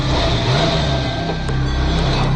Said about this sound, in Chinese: 韩光转看路口的西侧，停在变道花丛后面的一辆大卡车没打车灯，但是机器却猛然发动了